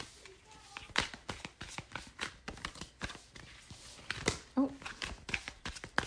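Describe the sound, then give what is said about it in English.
Tarot cards shuffled and handled during a card reading, producing many irregular crisp papery slaps and flicks in a steady, fairly soft run. “Oh, big chunk of cards fell out. We'll put those back in.”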